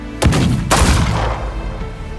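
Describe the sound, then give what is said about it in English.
Gunfire erupts in a town shootout: two loud sharp blasts in quick succession, then a rumbling, decaying roar of shots and echoes that gradually fades. “The air fills with gun blasts and smoke.”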